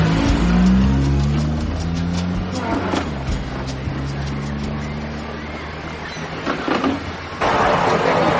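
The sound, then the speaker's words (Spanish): A car engine starts up and the car drives away, a low rumbling drone with shifting harmonic tones that keeps running throughout, with a louder, rougher noise joining near the end. “arranca el coche y se va”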